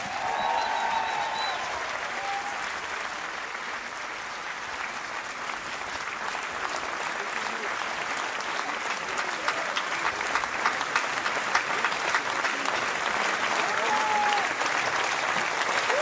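Dense, steady applause from a crowd giving a standing ovation at an open-air theatre after a women's jazz ensemble concert, sustained at an even, loud level for the whole stretch without a break.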